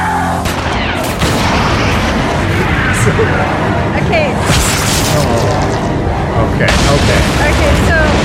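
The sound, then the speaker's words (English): Grenade launcher firing and exploding in a film action scene: a dense, loud roar of booms and gunfire-like bursts runs without a break. “The camera, as soon as he fires the grenade launcher, the camera POV switches to the grenade.”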